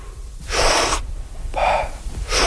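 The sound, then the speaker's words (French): Recovery breathing of a freediver just surfaced with elbows on a buoy: a few loud, forceful breaths with sharp gasping intakes and airy rushes, separated by brief quieter gaps, with no talk. “on va prendre nos respirations de récupération. Ça va être une grande inspiration, mm-hmm, très actif et passif en expiration.”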